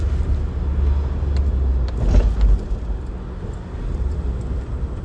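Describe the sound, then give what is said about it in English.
Vehicles pass on a road with a steady low rumble of tyres and engines that swells briefly near the middle, then settles back to a constant drone; no one talks. “there's a lot of vehicles coming”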